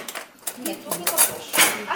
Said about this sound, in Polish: Wyciągamy sztućce, wyciągamy talerze i będziemy podawać zupę.